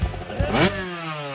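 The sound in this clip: Engine of an AX400 motorcycle revving in a radio advert: a short, throaty rev that peaks briefly and then winds down into a smooth, lower hum.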